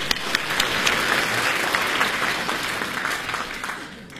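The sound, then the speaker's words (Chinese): Audience applause fills a live stage performance of comic storytelling and song: a dense, steady wash of many hands clapping, fairly loud throughout and easing slightly toward the end. “大西厢 啊，啊，来啊，再来点掌声”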